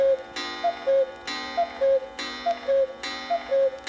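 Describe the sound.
Clock striking twelve noon: loud, ringing strikes alternate with short, clear, pitched chime notes in a steady repeating rhythm, with four cycles in quick succession.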